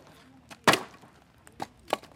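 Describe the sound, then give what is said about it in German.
Wood is chopped outdoors for firewood in wartime eastern Ukraine: one loud, sharp splitting strike, then a few lighter knocks and taps. “Solange es draußen hell ist, muss er noch Holz hacken.”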